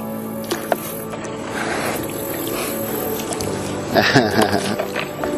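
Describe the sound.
A paddled boat knocks and scrapes against rocks on the water: a few sharp knocks and clicks over a continuous watery rush, with a louder burst of scraping and splashing toward the end.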